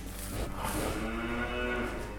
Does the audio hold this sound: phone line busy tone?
no